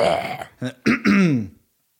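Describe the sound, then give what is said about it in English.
A person clears their throat: a few short guttural bursts build into a longer, rough, rasping vocal grunt before the sound stops. “I'll just get one last throat clear.”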